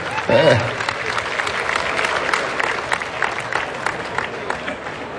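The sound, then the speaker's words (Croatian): An award ceremony audience applauds the evening's first winner with sustained, steady clapping. It holds at an even level throughout, and a voice briefly speaks over it near the start. “Evo, molim vas, dočekajmo ga pljeskom, prvi dobitnik večeri.”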